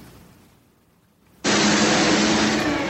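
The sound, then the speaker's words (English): A small tractor engine backing up into a warehouse breaks in abruptly after a quiet moment as a loud, steady, rough roar that holds unchanged to the end, with no talk. “he backed up his little tractor thing into a warehouse”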